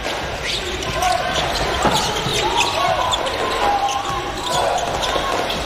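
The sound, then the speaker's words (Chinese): A basketball dribbled during a game against Australia's team, with steady repeated bounces under continuous talk and a busy arena background. “利用掩护，这球运的有点多。”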